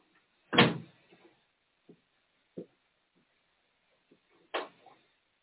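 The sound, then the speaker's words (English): A window that had frozen open is opened and closed. Two loud sliding thumps are separated by a few faint knocks and bumps. “Don't mind us. We're just opening and closing the windows.”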